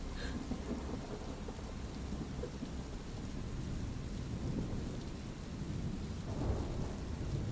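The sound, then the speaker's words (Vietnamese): Heavy rain pours down in a dense, steady roar that fills the whole stretch, with a few low rumbling swells beneath the downpour. “vang lên trong màn mưa ầm ầm như thác đổ”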